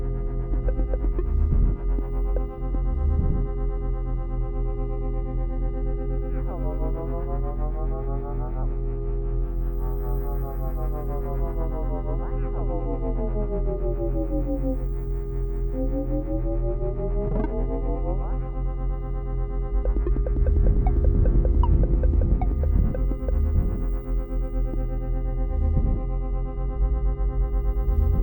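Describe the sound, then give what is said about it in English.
An audio navigation marker tone plays as a sustained, buzzy synthetic drone while the listener turns toward an element, overshoots and corrects. Its overtones sweep up and down in repeated glides, then the tone settles and grows slightly louder and pulsing near the end. “What you heard now was me turning towards the element, overshooting it a bit, correcting. Then the sound of the marker comes into focus.”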